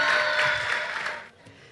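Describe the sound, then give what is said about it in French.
Audience applause for the students who pitched at the Mêlée Numérique 2023 pitch competition: dense, steady clapping that holds strong, then drops off sharply around the last half second. “j'aimerais qu'on les applaudisse une dernière fois avant qu'on essaie, qu'on coupe le live.”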